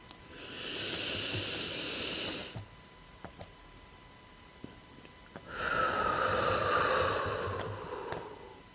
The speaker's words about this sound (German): Und halte deine Luft einen Augenblick dort, bevor du sie wieder durch den Mund lange ausatmest.